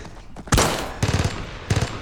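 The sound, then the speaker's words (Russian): Gunfire sounds in a war film scene with German soldiers. A loud shot is followed by a rapid burst of several rounds, then another short burst. “Иван целует жену и, держась за стену, встает. Стреляет. Немец падает.”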